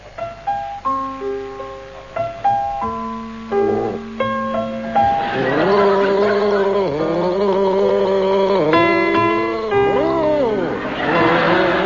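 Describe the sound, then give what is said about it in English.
A few clear, decaying piano-like notes open, then a voice gargles Brahms' Lullaby as a panel-game challenge, producing wobbling, bubbly sustained tones that rise and fall with the melody. “Now, will you gargle Brahms' Lullaby?”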